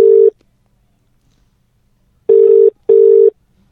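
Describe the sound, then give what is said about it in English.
Electronic call tones sound as a caller is dialed into a conference line: three steady, mid-pitched beeps. The first is short and alone, and after a long silence two more follow close together. “Alright, we're just dialing in Allison now.”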